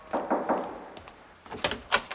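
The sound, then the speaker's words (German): Knocking on a door whose doorbell is broken: a quick run of three sharp raps, a pause, then a few more knocks, loud against an otherwise quiet background. “Die Klingel ist kaputt. Dann klopf.”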